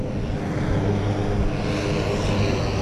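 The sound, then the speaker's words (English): A Thai F-16 fighter jet takes off with a heavy, steady, loud roar that holds evenly throughout. No voices are heard over it. “But these Thai F-16s, oof. We've got one more to take off.”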